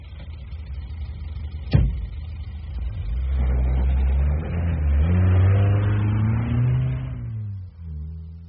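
A car driving off: a sharp thud, then the mid-pitched engine revs up and holds a strong, rising drone before easing near the end.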